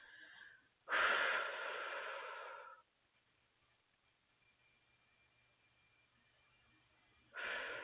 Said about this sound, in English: I'm just going to sit with it and breathe through and move the energy through my breathing